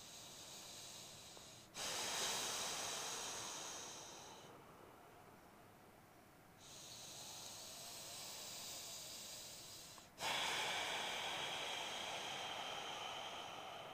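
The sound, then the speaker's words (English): Ujjayi breathing during a yoga session: a few long, slow inhales and exhales, each a soft, ocean-like hiss through a narrowed throat, rising in at the start of each breath and then easing off. “One more breath. Inhale. Exhale, Ujjayi breath.”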